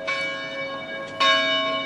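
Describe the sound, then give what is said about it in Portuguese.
Church bells ring to call people to mass. Two clear strikes land about a second apart, and each leaves a long, bright, ringing hum that carries on to the end without any voices. “E durante a entrevista, os sinos começam a tocar. Mas é para chamar para a missa.”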